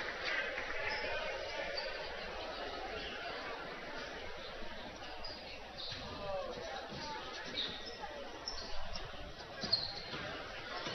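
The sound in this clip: A basketball being dribbled during a women's basketball game, soft bounces on the court amid steady crowd chatter and voices.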